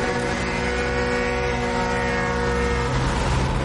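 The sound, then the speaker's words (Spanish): Boat engine droning as the vessel passes: a steady, loud, tonal mechanical hum that holds an even level, with no voices. “El barco pasa de largo.”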